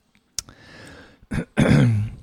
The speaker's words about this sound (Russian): Excuse me. Swallowed the water the wrong way.